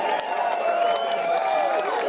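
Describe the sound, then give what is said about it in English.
Applause and cheering from a studio audience, celebrating a guest who paid off $180,000 in student loan debt, a steady wash of clapping and crowd noise holding level and fairly loud throughout with no talk. “can we get a round of applause?”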